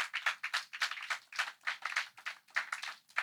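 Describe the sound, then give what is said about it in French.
A church audience claps in unison, many crisp hand claps at a steady, even beat with no voices over them. “Si tu es d'accord avec moi, acclame la parole de Dieu.”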